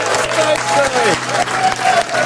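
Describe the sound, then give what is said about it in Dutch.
Applause from a crowd, dense steady clapping throughout with a voice speaking over it. “dames en heren, maak een grote applaus”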